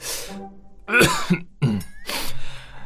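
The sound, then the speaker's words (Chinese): A woman coughs a few times, short harsh bursts of throat-clearing coughs separated by brief pauses. “咳嗽了一声”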